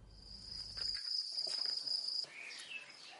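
Crickets chirp at a cricket farm where the insects are raised for flour. The trill is high, steady and continuous, fairly faint with no other sound, and cuts off abruptly just past two seconds.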